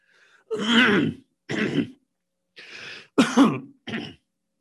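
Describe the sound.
Throat clearing and coughing from a person whose cough drop isn't easing the cough: five rough, separate bursts with short gaps, the first two loudest and the later ones slightly clipped, with no talking.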